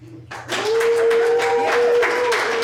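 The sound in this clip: Talk show audience applauding a rapper guest as he is introduced. The clapping breaks in after a brief quiet moment and holds steady, with a sustained musical tone running beneath it.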